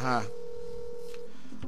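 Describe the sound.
Telephone tones as a call is dialed: a brief voice at the start, then a long steady tone followed by a few short tone bursts.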